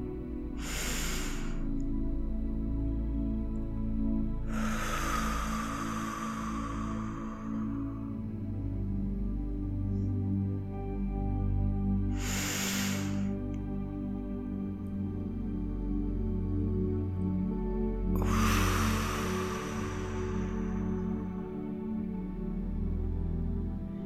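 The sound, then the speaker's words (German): Slow, deep breathing during a relaxation exercise, in through the nose and out through the mouth: short airy inhales alternate with longer, softer exhales, two full cycles over a steady low drone. “Nimm ein paar tiefe Atemzüge in den Bauch und atme durch die Nase ein, mit einer kleinen Pause und durch den Mund aus.”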